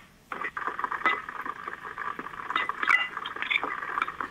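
Onion rings fry in oil in a Chefman deep fryer, a busy crackling sizzle with scattered sharp pops and light metallic clinks. It starts abruptly after a brief quiet moment and keeps fluctuating in loudness.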